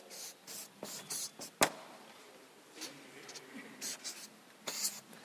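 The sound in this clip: A word is written out by hand in many quick, faint scratching strokes of uneven length, with short pauses between them.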